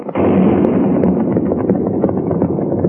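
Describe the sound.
A blasting-powder explosion at a mine at night: one sudden loud boom, then a long, rolling rumble that holds steady to the end.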